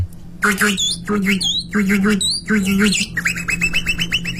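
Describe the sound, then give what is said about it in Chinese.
A human voice imitates water birds in a mouth-whistle performance: repeated nasal squawks and harsh calls in short bursts, then a quick run of bright chirping notes. “这水鸟 啊、 哦、 飞走了、 啊、都在那个水里头，都在那个尾塘里面”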